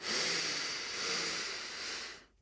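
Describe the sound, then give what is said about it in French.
A deep inhale through the nose during a guided breathing exercise: a steady, airy hiss held for about two seconds before it stops abruptly. “Inspirez profondément par le nez”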